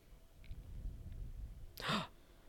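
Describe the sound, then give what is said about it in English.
A dog gives a big yawn, heard as one breathy, sigh-like exhale near the end over a low, steady background rumble. “Oh, puppy. Big yawn.”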